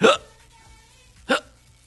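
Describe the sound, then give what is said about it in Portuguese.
A human voice imitates a drunk man's hiccups: two sharp, loud, breathy hiccup bursts separated by a pause of about a second, with faint quiet in between. “e soluço pra cá e pra lá, soluço pra cá e pra lá”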